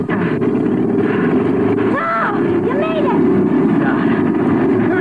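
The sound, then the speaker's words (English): A small boat's outboard motor runs with a loud, steady, rumbling drone during an attempt to start it after a close call on the water, with a few faint high squeaks above it. “I'm going to try this motor one more time.”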